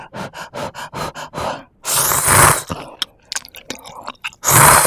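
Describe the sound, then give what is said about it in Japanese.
Eating instant ramen noodles: a quick run of about eight rhythmic chewing bursts, then long noisy eating sounds and scattered small clicks, ending on another loud noisy burst, with no talk. “こんなインスタントラーメンが一番美味しいよ。いただきましたよ。”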